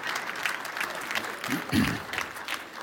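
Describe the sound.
Audience applause welcomes two volunteers onto a stage. Many hands clap in a sustained, even clatter that holds steady from start to finish.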